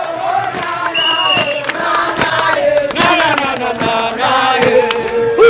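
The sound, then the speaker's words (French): Cheers and shouts rise from a huge crowd in Youth Olympic Games t-shirts and caps at the Padoue crossroads, welcoming the Olympic torch relay. Many voices overlap in a loud, continuous, festive clamor with sharp whoops throughout. “Carrefour de la Padoua, une foule immense en t-shirt et casquette à l'effigie des JOJ accueille la torche olympique.”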